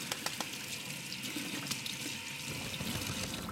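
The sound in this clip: Tap water runs steadily as lamb meat is rinsed after being brushed with weak lye in a rural central French kitchen: a continuous hiss with a few faint splashes and clicks, and no voices.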